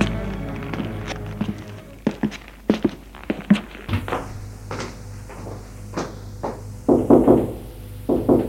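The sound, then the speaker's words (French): Knocking on a bedroom door: sharp wooden raps and thuds spread unevenly among quieter rustling movement, with no voices. “Une demi-heure plus tard, il va frapper à la chambre de sa femme.”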